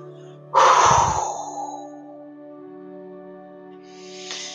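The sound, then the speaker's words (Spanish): A forceful exhale through the mouth during a breathing exercise: one loud, breathy rush of air that starts abruptly and fades over about a second, above steady sustained background tones. “cuando ya no puedes aguantar más, exhala con fuerza por tu boca hacia la tierra.”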